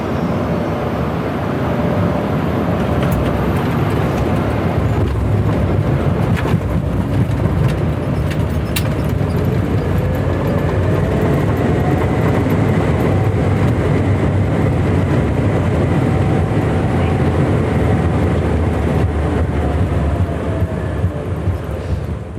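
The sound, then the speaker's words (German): Loud, steady roar of a Swiss Airbus A220 airliner landing at Vilnius, a continuous dense rumble of engines and rushing air that holds for the whole stretch, with no voices. “Hier ist die Landung für euch im Schnelldurchlauf.”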